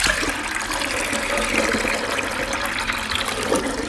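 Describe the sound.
Water splashing and running as freshly churned butter is rinsed in clear water after the buttermilk is drained, a steady, fairly loud wash of liquid noise throughout with no talk.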